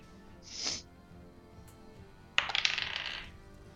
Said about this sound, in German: Würfel mal 2W20.